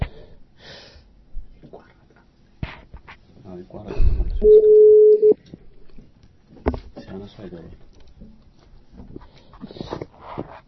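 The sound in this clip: A steady, mid-pitched mobile phone tone sounds for under a second while callers are added to a conference call on a mobile phone. A man talks and breathes around it, with scattered clicks.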